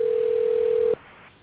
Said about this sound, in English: hello? That's I hear a phone ringing.